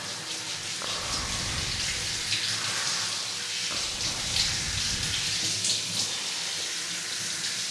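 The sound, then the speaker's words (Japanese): Water pouring steadily while rinsing someone's back, a continuous hissing, splashing flow that stays at an even loudness with no pauses and no talk over it. “後ろも流しますね。”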